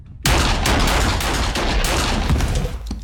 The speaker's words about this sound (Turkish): Silahsız birini mi vuracaksın? Evet.